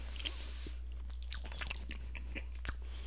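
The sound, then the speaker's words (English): Crunching and chewing on tomato-flavoured candies: many irregular, crisp crackles and bites, fairly loud and close, over a steady low hum. “We're eating tomato candies right now.”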